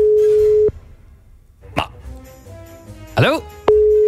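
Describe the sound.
A telephone ringback tone sounds for an unanswered call: a steady, low, pure tone at the start, a few brief voiced sounds in the gap, then the same tone again at the end.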